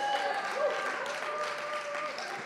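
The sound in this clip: A church audience claps and cheers during a service. A broad wash of crowd noise holds at an even level for a couple of seconds, with faint sustained tones underneath.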